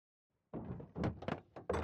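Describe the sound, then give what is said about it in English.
Door being pushed against while someone holds it closed: after a short silence, a few dull, heavy thuds and knocks follow in quick succession. “It's getting pretty hard to hold this door closed.”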